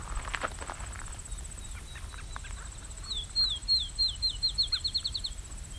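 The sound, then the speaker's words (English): A raven calls far off, giving a rapid series of short, sharp, parrot-like notes that each dip in pitch, faint above a steady background hiss. “Okay, you can start to hear a raven calling.”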